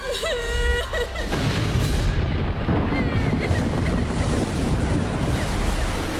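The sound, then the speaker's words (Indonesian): Fierce ocean waves roll over two boats in a continuous, loud roar of surf and wind-driven water. A brief voice is heard at the very start. “Ombak semakin ganas menggulung kedua kapal itu.”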